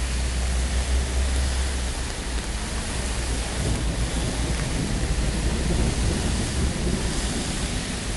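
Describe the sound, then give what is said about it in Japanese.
Deep rumbling thunder beside a road with car traffic forms a dense, continuous roar with a heavy low-end rumble. It stays steady in loudness throughout, with a hiss like rain on top. “そして雷も鳴っている。”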